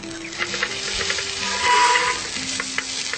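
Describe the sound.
An eggplant omelette sizzles as it fries in a pan, a steady crackling hiss with faint stirring or scraping, swelling a little in loudness midway through.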